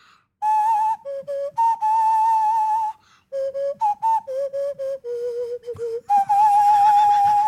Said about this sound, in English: it fits over the mouth in this fashion and over the nose, and then you can intone beautiful sounds with it, like Zamfir.